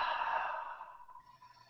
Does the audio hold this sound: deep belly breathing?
yes